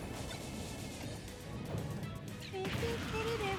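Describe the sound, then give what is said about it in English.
Rumbling crash of a platform collapsing in a video game, a continuous broad wash of noise with short tonal game blips near the end. “Whoa, oh, that platform's going down.”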